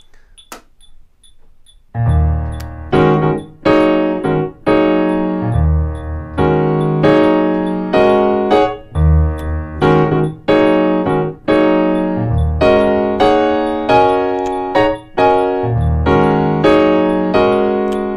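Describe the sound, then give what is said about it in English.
A piano comps with pentatonic voicings in E-flat minor, playing loud, rhythmic, short-and-sustained chords over a steady metronome tick that begins alone before the playing enters. “So if I were comping using just these voicings in the key of E flat minor, it would sound like this. I'm going to put my metronome on.”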